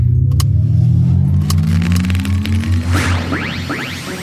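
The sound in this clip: A car driving off, its engine droning steadily and rising in pitch as it pulls away, with a few light clicks near the start.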